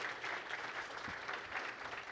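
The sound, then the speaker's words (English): Applause from an audience at a worship gathering, thanking a group. The clapping is steady and dense throughout, fairly soft, with no voices over it. “Can we give a round of applause to this group here?”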